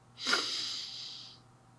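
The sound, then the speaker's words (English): One deep inhale through the nostrils, a breathy hiss that swells quickly and then tapers off over about a second and a half. “go ahead and inhale through your nostrils positive energy”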